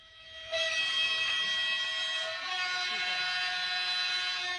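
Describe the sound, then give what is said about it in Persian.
A train departs from the historic Khaf station on the Khaf–Herat railway, sounding a long, loud, steady horn that holds throughout, its tone shifting partway through. “حرکت همزمان قطار از ایستگاه خاف ایران به سمت ایستگاه روزانک افغانستان و بالعکس، از ایستگاه تاریخی خاف به سمت ایستگاه روزنک در افغانستان شروع بفرمایید.”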